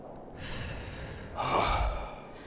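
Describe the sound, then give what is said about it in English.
A single breathy human exhale released after a held breath, a short, soft rush of air that swells briefly and fades over faint background hiss. “And exhale.”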